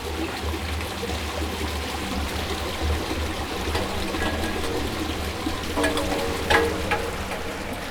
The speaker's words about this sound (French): La raison pour laquelle on mesure des débits d'eau ici dans cet égout